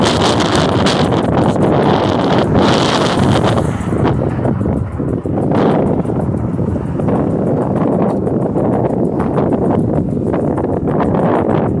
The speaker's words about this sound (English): a strong wind such as this